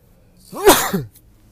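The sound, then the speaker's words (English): A single sneeze, loud and abrupt with a sharp inhaled lead-in, heard alone against near silence. “excuse me, that was a sneeze”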